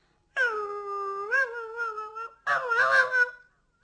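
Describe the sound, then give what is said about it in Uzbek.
A small puppy growls to itself in two drawn-out, tonal, whining vocal bursts, the first long and wavering and the second rougher and louder, each fading away, with silence around them. “Kuchuk irillabdi-da o'ziga o'zi.”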